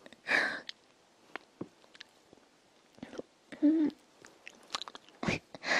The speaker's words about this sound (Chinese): 我要咬你。好吃。